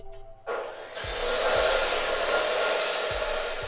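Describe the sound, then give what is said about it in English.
A grinder working metal parts in a garage cuts in abruptly and runs as a loud, steady, hissing whine with a few low thumps beneath, holding its level with no talk. “there's a young woman working this grinder, grinding away, you know, very methodically, very purposefully working on parts”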